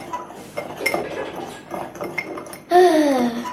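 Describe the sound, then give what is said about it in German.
A spoon stirring a mixture in a bowl while batter is being worked smooth, giving soft, irregular clinks and scrapes at a low level throughout. “ich das jetzt mit rühren? Oder soll ich immer noch weiter rühren? Rühr mal ruhig.”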